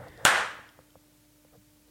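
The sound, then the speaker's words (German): Two sharp hand claps separated by quiet. The first is loud and rings out briefly before decaying, and the second comes right at the end. “Oh, wir sollten noch klatschen.”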